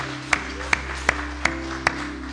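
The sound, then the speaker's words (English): A church audience gives the Lord a hand clap of praise: five sharp, evenly spaced claps ring out over a steady low hum. “the Lord a hand clap of praise.”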